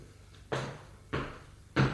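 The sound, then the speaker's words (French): A door being closed, heard as three sharp bangs at roughly even intervals, the last one the loudest, over a faint low hum. “Ils entrent, elle ferme la porte.”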